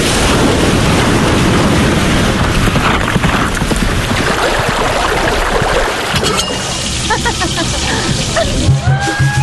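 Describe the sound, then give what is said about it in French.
Ambient surf on the coast of Réunion island: loud, continuous rushing waves and wind noise that fill the whole stretch and ease slightly toward the end. “Ça, c'est le son de la Réunion.”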